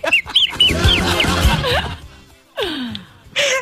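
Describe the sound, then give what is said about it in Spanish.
Chicken calls from a bird said to have bronchitis: a run of high, chirping peeps, then a couple of hoarse, falling, wheezy cries over a rough background. “Mira, es un pollo.”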